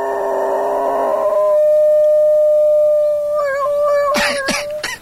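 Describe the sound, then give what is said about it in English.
A dog howls in a long, steady, high tone that imitates a fire engine siren, wavering near the end, with a few sharp, brief noises at the close. “A dog that thinks it's a fire engine.”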